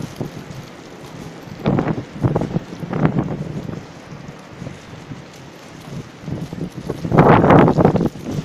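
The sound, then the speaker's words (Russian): A strong windstorm blowing through a city, gusty roaring that buffets the microphone in several surges, separated by calmer stretches, with the loudest blast near the end. “И в городе ураган. Непонятно откуда.”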